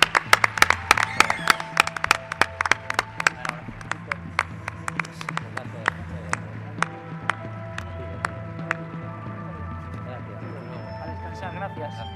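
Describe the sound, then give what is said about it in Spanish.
Applause from an audience for a guest on a Spanish-language radio program: many sharp claps, dense and loud at first, then thinning and fading toward the end. “Un aplauso, Víctor Amela, un grande.”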